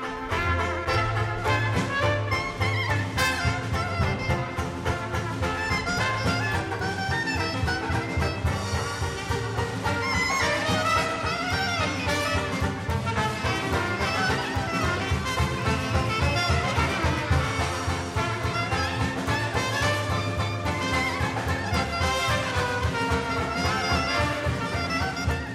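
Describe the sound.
A 1962 New Orleans jazz band recording, with a full ensemble playing continuously in a busy, layered texture of melody and rhythm at a steady, fairly loud level throughout.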